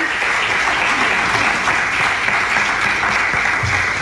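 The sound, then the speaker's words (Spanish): Sustained, loud applause from a crowd at a fundraising announcement for a family welfare agency, many hands clapping in an even, unbroken roar throughout. “quiero darles un fuerte aplauso”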